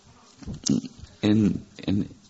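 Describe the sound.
A human voice imitates bees buzzing with a few voiced, humming bursts, the longest and loudest in the middle, each with a low, droning buzz.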